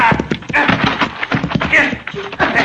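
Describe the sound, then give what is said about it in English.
Hoofbeats of a galloping horse during a chase scene in a Western drama, quick rhythmic thuds and clops rolling steadily through the whole stretch at a fairly loud level. “Faster, Diablo. Faster, get up. Pull up your horse, Lawson. You do not have a chance of getting away.”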